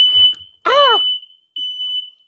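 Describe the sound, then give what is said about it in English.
A fire alarm sounds a piercing, high-pitched steady tone that carries through the whole stretch, with a brief voiced exclamation cutting in partway. “Is a fire alarm going off?”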